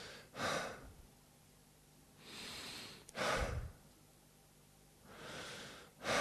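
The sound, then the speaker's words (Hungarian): A voice imitates a sleeping person's breathing: a few slow, drawn-out breaths, each a soft airy rush, separated by quiet pauses. No words are spoken. “az alvó embernek a légzése az úgy néz ki, hogy”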